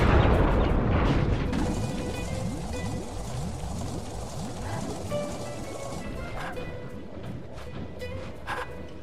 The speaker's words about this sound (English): We are gonna blast!